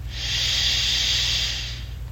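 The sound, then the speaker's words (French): A slow, deep inhalation during a guided relaxation exercise: a steady, airy hiss that swells and fades over about two seconds, with a low hum underneath. “Inspirez profondément, absorbant cette résilience.”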